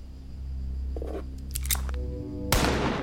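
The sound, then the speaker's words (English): A gun fires once, a sharp, loud crack near the end, preceded by a few faint mechanical clicks over a steady low hum. “Are you sure this thing fires straight? Don't blame it on the gun. Oh, check it. I got him in the gut.”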